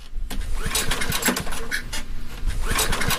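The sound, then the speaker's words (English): Portable generator that had not run since 2022 failing to start in a basement, with repeated rhythmic cranking rattles in quick succession that never catch into a running engine. “You're down in the basement holding a flashlight in your teeth trying to start a portable generator that has not run since 2022. It doesn't start.”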